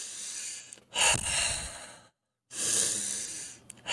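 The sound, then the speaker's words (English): Breathwork breathing in a continuous pattern, in through the nose and out through the mouth: two long, airy breaths separated by a brief silent pause, with another breath beginning at the very end, steady and unvoiced. “it's just called the halo active breath. It's in through the nose and out through the mouth in a continual pattern without stopping.”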